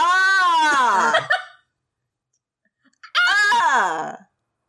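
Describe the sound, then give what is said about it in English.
A voice imitates a random atonal scream in two long, strained cries, each sliding downward in pitch, with a stretch of silence between them. “No! Just a random atonal scream. There's no other way to release their anger.”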